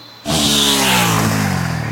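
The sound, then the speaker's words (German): A motorcycle engine roars loudly as the bike speeds past in a forest, starting abruptly after a brief quiet moment, then holding a steady, throaty rev whose pitch sinks slightly as it goes. “Hat sich auch gleich ein Motorrad besorgt. Und mit dem fegt sie jetzt hier lang?”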